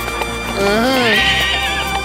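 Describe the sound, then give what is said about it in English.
A horse being saddled up lets out a loud whinny that rises and falls in pitch, over a steady background of hooves clip-clopping. “All right then, mija, we'll saddle up. Let's go, giddy up. Giddy up.”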